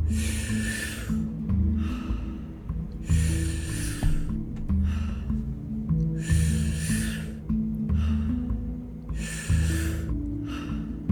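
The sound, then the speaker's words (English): Deep breaths in a guided breathing exercise, four strong airy bursts spaced about three seconds apart, heard over steady low music. “I want you to follow along with the breather and tap into this moment. And we'll begin the exercise in 3, 2, 1. Start with the inhale.”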